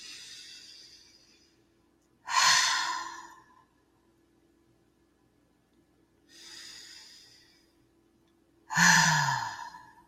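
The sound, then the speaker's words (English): Two slow, deep breaths taken alone, each a soft airy inhale followed after a pause by a louder, sighing exhale. “So let me take a couple deep breaths first. I invite you to take them with me.”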